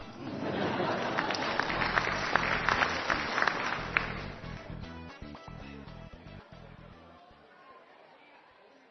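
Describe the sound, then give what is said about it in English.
Canned studio-audience applause from a recorded comedy show, with dense clapping mixed with crowd chatter. It stays loud for several seconds, then thins and fades away toward the end. “This show was recorded in front of a canned studio audience.”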